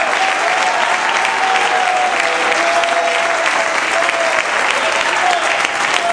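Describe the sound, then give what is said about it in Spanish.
A church audience claps in sustained applause during a sermon, a dense, even patter of many hands that stays loud and steady throughout, with a faint tonal voice or sustained note running beneath it. “Dale un aplauso a Cristo, que él se lo merece en esta hora.”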